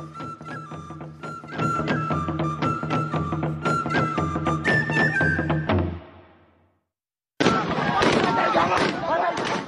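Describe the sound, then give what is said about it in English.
Live gunfire as soldiers fire on protesters in a Sudanese town: many sharp cracks in quick succession over a steady tone, a brief drop to silence, then another dense, noisy burst. “That's the sound of live gunfire posted on social media of Sudanese soldiers firing on protesters”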